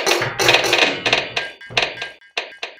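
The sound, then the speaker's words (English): Rifle bullets clank against a tank's armor in the Italian-Ethiopian War, many sharp metallic hits in a quick, uneven cascade, loud bursts separated by brief gaps. “It was rifles from attackers in the hilltops near them, hitting their armor.”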